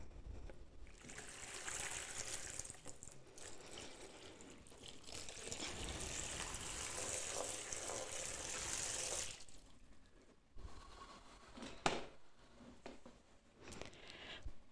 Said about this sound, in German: goss Wasser in eine Schale